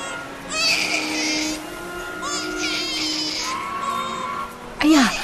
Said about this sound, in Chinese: 这是哪一家的小宝贝哭得这么惨啊